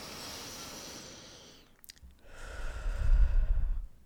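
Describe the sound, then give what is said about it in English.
A deep breath in and out during a guided relaxation: a long, soft inhale fading out, a short pause, then a louder, rougher exhale that swells and trails off, with no talk. “Now I want you just to take one last deep breath in and out.”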